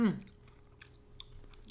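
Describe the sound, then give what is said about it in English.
Caramel milk chocolate being chewed, faint soft clicks and moist crunches at spaced intervals after a brief voice at the start. “Yeah, this is for sure caramel. All right. Let's try it. Tastes pretty milk chocolatey, right?”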